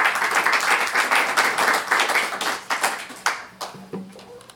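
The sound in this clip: Audience applause for a reader at a reading event, dense and lively at first, then thinning into scattered individual claps as it dies away.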